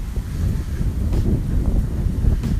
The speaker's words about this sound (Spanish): Escuchan, si es que lo logran escuchar, el viento pegando en las ramas de las palmeras.